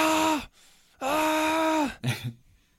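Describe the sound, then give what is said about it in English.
A voice imitates an SX Axis bicycle gear shifter screaming as it shifts. Two long, loud, strained vocal screeches each dip in pitch as they end, and a short, choppy burst follows. “I hope when SX Axis comes out that it's like really loud slash like crunchy, where it's like scary. You're scared to hit the button. Like, would it just scream every time you shift? It'd just be like,”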